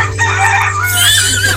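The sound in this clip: A rooster crowing in a loud, strained, wavering call over a steady low hum.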